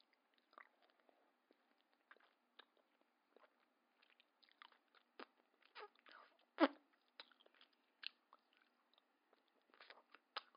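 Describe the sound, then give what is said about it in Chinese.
Biting and chewing on an ice lolly: many faint, irregular crunchy bites and chewing crackles, with one louder crunch near the middle and quiet gaps between the others. “我在吃冰棍啊”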